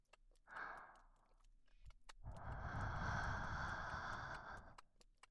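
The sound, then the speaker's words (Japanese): Breath blown out softly in two puffs, a short one followed after a pause by a longer, steady exhale of about two and a half seconds, faint and heard alone. “こうして息を吹きかけてあげるくらいなら、してやってもいいわよ。”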